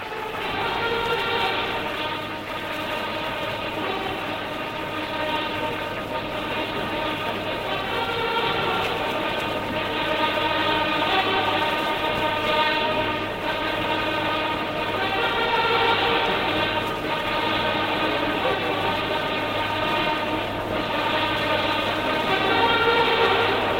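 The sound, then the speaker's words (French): A train pulls into a station during a ceremonial arrival. Its loud, steady rumbling drone carries a constant tonal hum and runs without a break throughout. “Car, vous l'entendez, voici son train qui entre en gare avec 2 minutes d'avance.”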